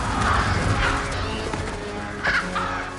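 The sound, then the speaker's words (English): A flock of black ravens caws harshly during an attack. Several loud, rasping caws rise above a dense, rushing background. “Ravenna explodes into scores of black ravens, which attack with their beaks and talons.”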